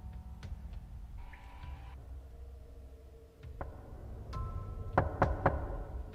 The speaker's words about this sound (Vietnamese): bất ngờ tiếng gõ cửa khô khốc lại một lần nữa vang lên.